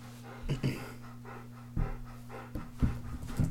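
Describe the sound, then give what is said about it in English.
A dog breathes and pants in a few short, soft bursts of breath at an irregular rhythm over a steady low hum. “That noise you're hearing is the dog breathing.”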